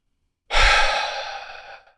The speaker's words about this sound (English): we will take 4 to 8 deeper cleansing breaths or catch-up breaths per hour, and we don't even note it. We don't even notice it. This is where we breathe in short and breathe out long, and we all go,